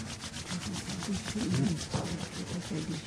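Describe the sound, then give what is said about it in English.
Palms rubbing briskly together, many soft swishing strokes in a steady back-and-forth rhythm, fairly faint and without talk. “Rub your palms.”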